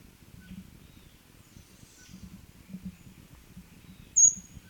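A single high, thin bird note rings out once near the end, short and fairly sharp, above a low, faint background rumble.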